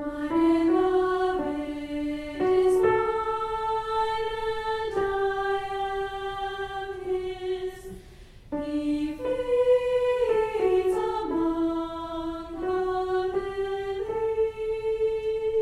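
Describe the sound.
Opening of a choral fugue, voices singing a text about the beloved: sustained melodic sung lines, with later entries layering over the first, at a steady, fairly loud level.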